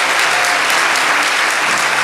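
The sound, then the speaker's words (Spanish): Loud applause from an audience during a gospel preaching service, a thick and unbroken roar of many hands clapping that holds at a steady level throughout. “Vamos, dale ese aplauso al Señor.”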